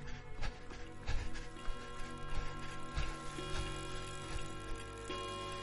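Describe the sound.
A clock ticks in the small hours past three in the morning, a steady run of faint ticks over a dense, sustained background.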